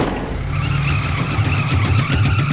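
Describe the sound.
A carjacked taxi cab speeds away, its engine roaring loudly and steadily with a whining, revving tone that holds throughout.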